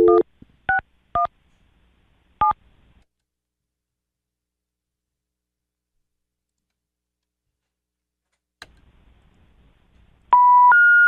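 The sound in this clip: Touch-tone keypad dialing a telephone number: four short dual-tone beeps at uneven intervals, a long silence, a faint click, then a louder sustained tone pair to the end.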